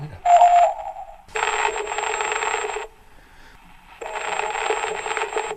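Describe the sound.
Telephone ringing tone as a call connects: a short beep, then two long buzzing rings separated by a quiet pause, steady in pitch and fairly loud.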